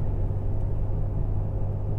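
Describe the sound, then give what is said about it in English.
A car engine droning in fourth gear at about 1900 RPM just after a downshift, a steady low rumble that holds an even level throughout, with no talk over it. “Gotta shift down here. Fourth gear. 1900 RPMs.”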